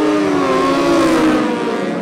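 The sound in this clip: Racing solo motorcycles, including Honda and BMW machines, accelerate hard away from the start of a nine-lap championship road race. The result is a loud, continuous, layered engine roar with several steady harmonic tones that holds throughout.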